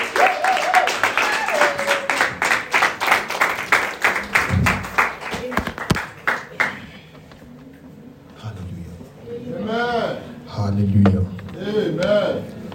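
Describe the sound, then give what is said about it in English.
Church audience applauding to welcome a pastor: dense, rhythmic clapping for about six seconds that tapers off, then a person speaks. “please let's put our hands together as I welcome Pastor Wally Odunwa.”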